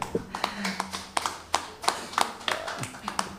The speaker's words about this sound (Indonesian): Oke, kita berikan aplaus dulu kepada empat narasumber kita.